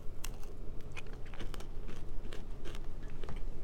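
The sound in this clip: Crisp bites and chewing on a pretzel twist loaded with caramel, dipped in white chocolate and rolled in cinnamon sugar. Many sharp crunches come in an irregular, steady stream at moderate loudness, with no talking.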